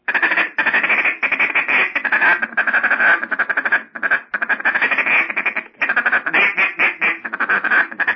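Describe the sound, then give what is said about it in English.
Feed call blown on a duck call: rapid, raspy runs of short quacking notes in dense bursts, separated by brief pauses, loud and alone. “a lot of people don't even know about clucking and stuff on duck call. I mean, their idea of feed call is just”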